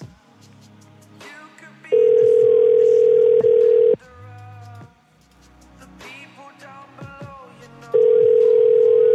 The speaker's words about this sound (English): It picks up and then it just keeps ringing.